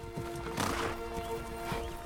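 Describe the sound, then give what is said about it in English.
Hooves thud as four young stallions trot together in a grassy paddock. The steady, muffled footfalls run throughout the short stretch with no voices. “Horses graze in one of the grassy paddocks. One stands silhouetted against the pink sky. Four young stallions trot in a group.”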